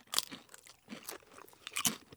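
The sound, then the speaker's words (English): Someone crunches a Pringle crisp topped with sour cream dip and caviar. Several short, dry, crackly crunch bursts come with quieter chewing between them, fairly faint and without talk. “You have your Pringle, you have your sour cream dip, and you have your caviar on top.”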